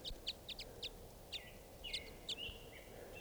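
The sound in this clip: Many short, high chirping calls from a flock of five or six type five birds foraging on buds in aspens, some sharp and some slurred downward, scattered over a steady low hum.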